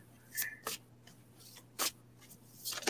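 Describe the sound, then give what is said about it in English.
Drawing and shuffling a new deck of cards, a few short, sharp rustling and snapping bursts separated by quiet gaps, faint and with no voices. “Drawing her a card. My new cards.”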